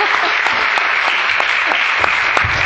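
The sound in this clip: An audience applauds to welcome a speaker, with dense, steady clapping that fills the whole stretch at an even, lively level.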